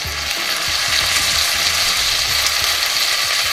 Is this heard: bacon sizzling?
yes